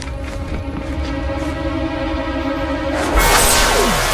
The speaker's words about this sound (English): The guy waves his glowing hand, blasting the large metallic door open.